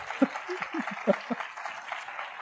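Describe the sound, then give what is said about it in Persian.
Soft hand clapping from one listener applauding a speaker: a light, steady patter with a few brief voiced sounds mixed in. “بزن دستو برای من داره دست میزنه بابا. بزن بابا.”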